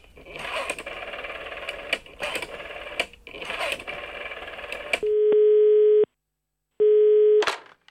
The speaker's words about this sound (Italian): Convince quindi il padre a chiamare il club.